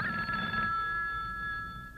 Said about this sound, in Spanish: miró horrorizado el teléfono que resonaba